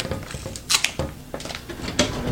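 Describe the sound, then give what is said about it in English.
Sticky rubberized duct-like tape being pulled, giving a series of crackling, ripping bursts of uneven loudness separated by short pauses. “Yeah, that sound kind of like, sounds like duct tape, actually.”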